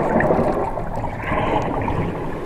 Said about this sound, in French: Le voilà qui plonge.